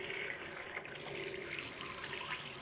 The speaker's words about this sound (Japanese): シャンプー流していくね。